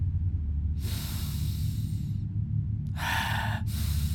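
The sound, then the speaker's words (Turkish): A person draws deep breaths: two long, breathy rushes of air stand out over a steady low hum, separated by a short pause. “Çek nefesi.”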